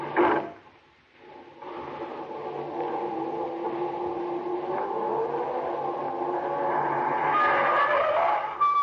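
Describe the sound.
A car backs up slowly. Its engine holds a steady low hum with rough, gravelly tire noise after a brief thump at the start, growing slightly louder toward the end. No one talks.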